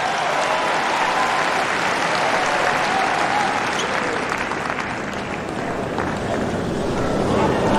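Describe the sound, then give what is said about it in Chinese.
Applause from a tennis crowd praising a fine shot, a dense, even roar of clapping that holds at a steady loud level for the whole stretch without a break. “德约科维奇也是鼓掌，德约科维奇从来不吝为对手的优异表现而鼓掌叫好”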